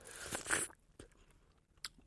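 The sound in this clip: Biting into a dark red strawberry: one crisp, juicy bite is followed by soft, wet chewing and a few faint smacks, all quiet and close.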